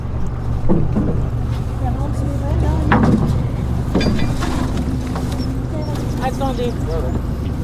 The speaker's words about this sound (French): nous emmènent en annexe vers leur bateau, en godillant, ferme.